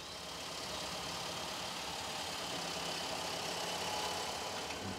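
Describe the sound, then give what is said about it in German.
A combine harvester runs while threshing hemp, giving a faint, continuous engine rumble with a dense, even hiss of machinery and no clear breaks. “So, der Drescher läuft und drischt den Hanf.”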